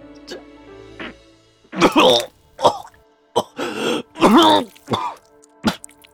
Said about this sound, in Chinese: 玉矮剧烈咳嗽起来，血也流得更加汹涌